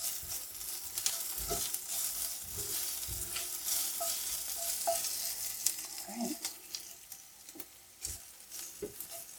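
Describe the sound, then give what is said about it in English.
Stirring of pepper, garlic and onion frying in a pan: a steady loud sizzle runs throughout, broken by a few sharp scrapes and clacks of the utensil against the pan. “I'm going to add that in with the garlic and the onion and stir it again.”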